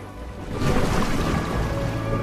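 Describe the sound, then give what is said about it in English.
Ocean water churns as a submarine sinks below the surface. A low, broad wash swells after half a second and holds steady, with no voices. “The ocean from space, then a submarine sinks below the surface.”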